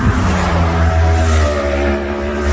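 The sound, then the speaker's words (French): Groups of motorcycles racing flat out along the Gineste road through the Vaufrège valley, a loud, sustained engine drone with a strong harmonic whine that stays heavy throughout, with no talk. “C'est des courses en fait, donc c'est-à-dire qu'ils passent par groupe de 7, 8, 10 motos et je pense qu'ils ne peuvent pas aller plus vite que ce qu'ils font. Ils sont vraiment à fond et c'est des allers-retours, donc c'est vraiment infernal.”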